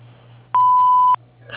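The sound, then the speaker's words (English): A voicemail answering machine tone: a single steady, pure electronic beep lasting just over half a second, loud and clean, with a faint low hum underneath and a brief rustle after it. “At the tone, please leave your name, a brief message, and your phone number.”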